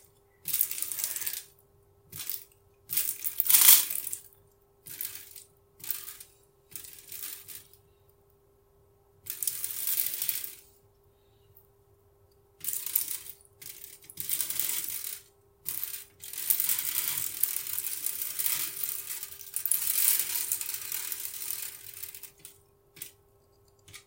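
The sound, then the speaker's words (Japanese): A urine stream hits aluminum foil in a bathroom: hissing, crackly spatter comes in several separate bursts, then settles into a longer, steadier stretch. “なんかうまく当たるかな、アルミホイルの上に。あ、すごいおしっこが出てる音がめっちゃ。”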